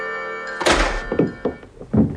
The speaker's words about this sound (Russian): С грохотом распахнулась отброшенная сапогом Гирина дверь.